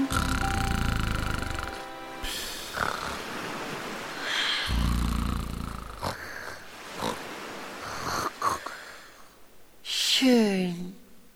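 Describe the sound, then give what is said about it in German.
A voice imitates a pirate snoring with a series of rough, snorting inhales and wheezy, breathy exhales separated by short pauses, ending in a louder rasping snort. “Und der sechste Pirat, der schnarcht so.”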